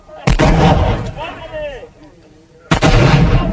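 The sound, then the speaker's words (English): Kurdish forces fire rockets at ISIS positions about six miles south, toward Mosul: two loud, roaring launch blasts, the first sustaining and tapering over two seconds, the second erupting near the end. “They are firing these rockets at ISIS positions about 6 miles from here south towards the city of Mosul, which ISIS still controls.”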